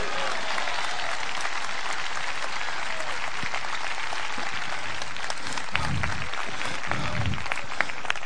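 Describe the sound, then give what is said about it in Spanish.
Applause from a church audience during a sermon: steady, dense clapping that holds at an even loudness for the whole stretch without letting up. “Dale un aplauso a Cristo y voy a terminar.”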